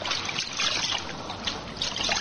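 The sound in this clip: River water splashes and trickles as it is scooped into a soldier's forage cap, a continuous light, bright dribbling and sloshing.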